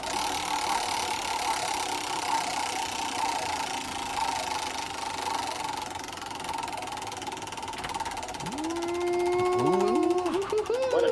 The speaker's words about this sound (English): Spin that wheel